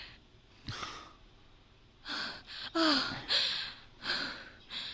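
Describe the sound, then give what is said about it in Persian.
Heavy breaths and gasps from someone close by, several breathy bursts in an uneven rhythm, with one sharp voiced gasp in the middle and no talk. “احساس میکنم یکی دور نفس میکشه. اینجا اینجا اینجاست.”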